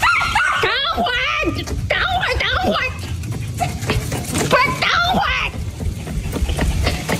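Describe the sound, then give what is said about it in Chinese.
A dog being taken out for a walk on a rope leash gives high whimpering yips, many of them, mixed with steady talk from people. “这狗能走，你说这兜兜啥也不弄，咋走的？”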